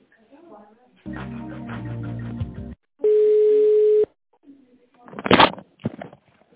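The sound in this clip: A single steady, mid-pitched telephone ringing tone lasts about a second on the line while a call is transferred. It is set between brief stretches of other sound, with faint voices after it.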